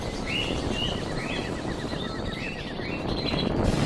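Alarmed birds calling as a story sound effect, startled by flames rising from a pond: many short, bright chirps and twittering trills repeat in quick succession over a steady rushing background noise.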